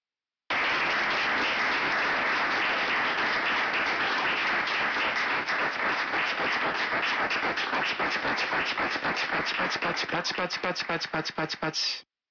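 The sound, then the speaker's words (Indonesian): Hands clap steadily in a dense, crackling patter, like applause. Near the end it thins into separate, quicker claps and then stops abruptly. “Ini adalah bunyi ketika kita menepuk-nepukkan tangan atau ketika memukul sesuatu terus-menerus atau secara berturut-turut.”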